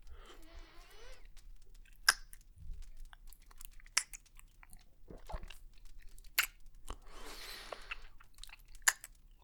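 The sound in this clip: Crisp biting and crunching into fruit, followed by wet chewing. A few sharp bites stand out over quiet mastication, faint and with no talk.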